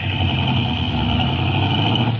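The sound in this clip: A car is driven slowly through a park, its engine giving a steady, even low hum with no revving. The sound holds at a constant level throughout.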